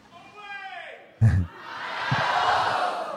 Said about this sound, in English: This audience has coordinated some Ohio chants. Okay. I don't like it. I don't like that you guys are banding together.